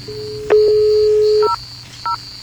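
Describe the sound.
Telephone keypad tones sound as a number is dialled: a long steady beep, then two short, higher beeps, over a faint, high, continuous tone.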